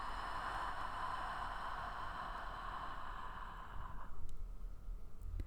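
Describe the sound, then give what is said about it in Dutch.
Slow, soft breathing during a guided relaxation exercise: a long, airy, hissing breath with little change in loudness, then a brief, slightly stronger breath near the end. “We ademen in. En uit.”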